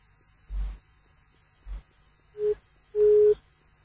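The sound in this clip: A busy tone after a phone call is cut off: a few short low pulses, the last two carrying a steady mid-pitched beep, fairly faint with quiet gaps between.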